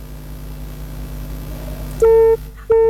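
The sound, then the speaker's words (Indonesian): Busy tone after a telephone call is cut off: two loud, steady beeps separated by a short gap, following a low, continuous background hum. “Baik, terputus, dicoba kembali ya.”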